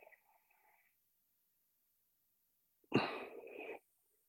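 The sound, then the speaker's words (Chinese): A single deep breath during a calming breathing exercise: a noisy rush of air lasting under a second that breaks a long near-silence. “然后我们，就是深呼吸这样子。”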